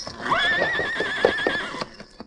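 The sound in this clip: A horse gives one long, loud whinny with a wavering pitch, lasting just over a second, as a stray bullet strikes its masked rider on a ridge crest and knocks him from the saddle.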